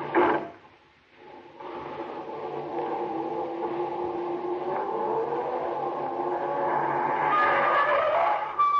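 A car reversing near a creek where a bridge has been out all winter. Its engine drones steadily throughout and grows louder and brighter toward the end, with no voices.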